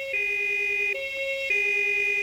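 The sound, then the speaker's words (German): An emergency vehicle siren sounds alone in a two-tone pattern, alternating between a higher and a lower steady pitch. It is held evenly and fairly soft throughout. “Als er die Sirene hört, fallen ihm die vielen Autounfälle unten an der Ecke ein.”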